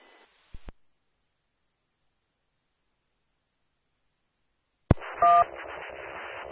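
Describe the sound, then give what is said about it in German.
A DTMF dual-tone sounding as a radio roger beep: a brief, steady two-note electronic beep that comes just after a sharp click and rides over continuous hiss, following a long stretch of silence. “Das, was sich da als Roger-Piep hervorteilt, hört sich aber eher nach einem DTMF-Ton an.”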